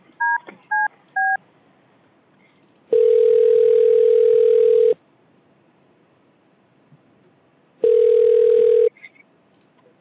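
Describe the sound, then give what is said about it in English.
A telephone call is dialed and rings: three short, bright keypad tones come first, then two long, steady ringing tones separated by a quiet gap. “Let me call Tyrone and see what's going on here.”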